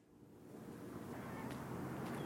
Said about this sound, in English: It is a windy day in the port city of New Bedford, about 60 miles south of Boston.